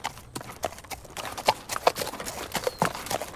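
Clip-clop of horse hooves made by a pair of magic boots as their wearer walks, many quick, irregular hollow knocks in an uneven trotting rhythm, heard alone.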